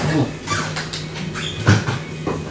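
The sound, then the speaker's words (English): A dog rummaging inside a cupboard where food is kept, with knocking and rattling of the cupboard door, soft whimpering, and one sharper bump partway through over a steady background. “Is there a dog in there? There's a dog in your cupboard.”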